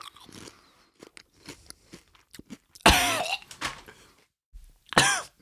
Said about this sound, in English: It smells like fish chips. Yuck. I will eat one and provide the listeners with some beautiful chip ASMR.